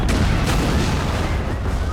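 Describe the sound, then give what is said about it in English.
Army rockets fire in a loud, continuous roar of rumbling booms, with a couple of sharp blasts near the start over the dense, low rumble. “The rockets are fired by the army.”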